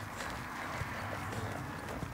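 Horse hoofbeats as the rider guides the horse one-handed: muffled, soft thuds over a continuous rustling noise, with no voices.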